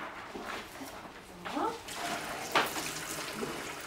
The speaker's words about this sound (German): Magst du den Salat waschen? Ja.